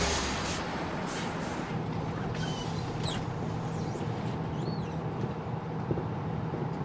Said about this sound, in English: The Mid-America's bus comes to a stop in Springfield.